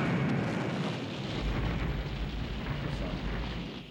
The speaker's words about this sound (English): That dynamite worked real fucking well.